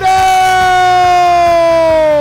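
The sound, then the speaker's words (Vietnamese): A stadium crowd at a football match in Phú Quốc erupts after a goal in a loud, sustained roar, with a steady horn-like tone slowly sinking in pitch above it. “Vâng, bùng nổ cầu trường.”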